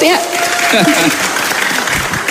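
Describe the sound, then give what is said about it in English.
Applause from an audience at an event in Malang: steady, dense clapping throughout, with a voice speaking over the opening moments. “Applause for RRE.”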